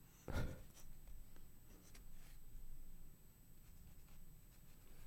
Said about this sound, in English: I feel like I need to write it well, scriggly like a fucking professional, like you don't like care, like a doctor.